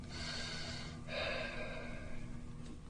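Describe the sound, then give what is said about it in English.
Soft, faint, deep breathing during a workplace relaxation exercise: a slow breath drawn in through the nose, then a longer, airy breath out through the mouth, with no other sound. “just relax, breathe deeply in through the nose, out through the mouth”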